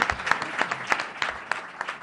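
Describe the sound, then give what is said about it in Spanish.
Applause for a panel of professionals at a human resources forum, moderately loud clapping with noticeable rhythmic pulses, heard on its own without talk. “Un aplauso a esta mesa que son grandes profesionales, ¿eh?”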